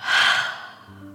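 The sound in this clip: A slow, breathy exhale during a guided breathing exercise: a loud, airy whoosh that gradually fades over about a second, followed by a faint, steady low tone.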